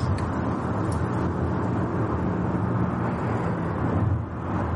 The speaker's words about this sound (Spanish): En coche. Ana conduce ensimismada.